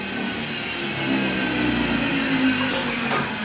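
Steady roar of a large wood chipping machine shredding very wet wood: a dense, continuous grinding drone that stays loud throughout and swells slightly after the first second, with no talking.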